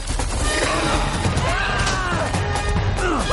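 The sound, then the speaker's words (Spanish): In an animated prehistoric adventure film, an elephant smashes through an earth embankment. A loud, continuous crashing rumble runs throughout, with tonal sweeps layered above it. “El elefante rompe un terraplén y corre perseguido por el felino que tira dentelladas a Tong.”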